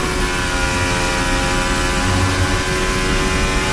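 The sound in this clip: A Formula 1 car engine heard onboard, held at high revs without shifting up, giving a loud, steady, buzzing drone at a constant pitch throughout.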